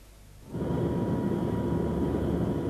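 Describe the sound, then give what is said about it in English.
Steady engine roar from an Aer Lingus airliner taxiing to its runway before takeoff, rising abruptly after half a second and then holding loud and even, with a faint high whine on top. “that was the message you heard just now, being received in operations as Foxtrot Yankee taxis to the allotted runway.”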